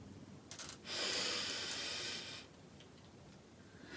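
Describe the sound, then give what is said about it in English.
A deep breath drawn in during a guided breathing exercise: a short airy sniff, then a long, steady rushing inhale of about a second and a half, followed by quiet. “if you can just take a few deep breaths in”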